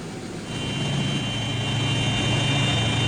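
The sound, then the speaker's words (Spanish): The engines of a Uruguayan Air Force Hercules military transport aircraft run on the runway. They give a steady, deep droning rumble, and a high whine joins after half a second. The sound grows slightly louder and stays continuous. “Este avión Hércules de la Fuerza Aérea Uruguaya estaba esperando en la pista la orden de despegue.”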